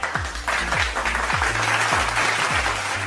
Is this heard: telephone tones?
no

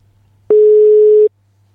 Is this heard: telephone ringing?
yes

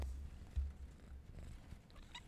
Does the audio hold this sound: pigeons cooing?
no

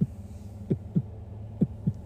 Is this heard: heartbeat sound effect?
yes

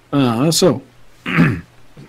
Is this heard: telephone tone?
no

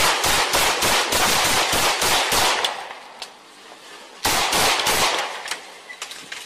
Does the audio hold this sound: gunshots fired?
yes

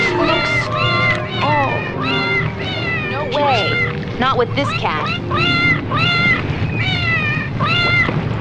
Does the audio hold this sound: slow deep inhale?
no

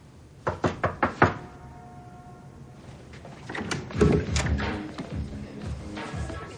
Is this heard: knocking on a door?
yes

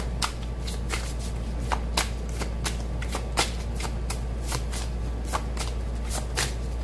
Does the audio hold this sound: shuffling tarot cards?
yes

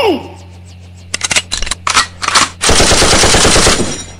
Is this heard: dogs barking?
no

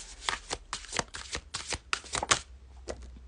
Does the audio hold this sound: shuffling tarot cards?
yes

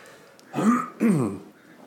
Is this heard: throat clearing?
yes

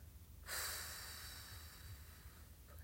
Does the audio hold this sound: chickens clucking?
no

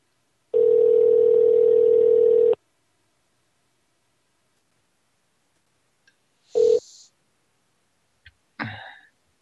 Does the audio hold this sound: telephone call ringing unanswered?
yes

